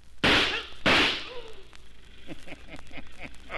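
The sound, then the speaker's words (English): Two sharp gunshots fired at a guard during a bank robbery, loud cracking blasts about half a second apart, the second ringing out longer before quieter, softer activity follows. “Oh, that sure was good shooting”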